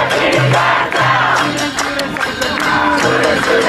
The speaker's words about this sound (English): The protests rage on.